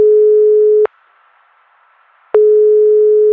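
A telephone call tone sounds before the line reaches voicemail: a steady low-pitched tone cuts off, a pause of about a second and a half follows, then a second tone of about one second.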